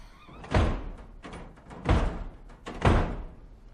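Heavy banging on a door: three loud, low thuds with booming impact, unevenly spaced, each ringing out briefly before the next blow.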